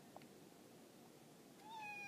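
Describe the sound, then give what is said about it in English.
A pet cat meows once near the end, a short, faint, tonal cry that rises over a quiet background hiss. There is no talk. “Pardon me, little kitty's being a jerk face. Did you need to come in here?”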